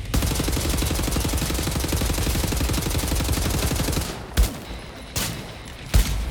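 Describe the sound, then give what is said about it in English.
Video game gunfire: a dense, loud, continuous burst of rapid automatic shots, followed by a few separate single heavy shots with short pauses between them. “Shooting at me.”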